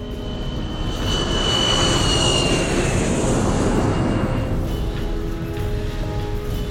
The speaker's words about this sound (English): flying his wide-bodied aircraft in a circle as it descends lower and lower.